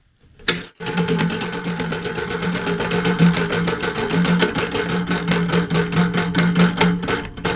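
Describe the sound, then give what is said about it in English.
A prize wheel spins with a continuous, rapid ticking whir that starts abruptly after a brief knock and runs steadily and loudly for several seconds. “Where will the wheel spin? All right, we have number... Oh, it's spinning backwards.”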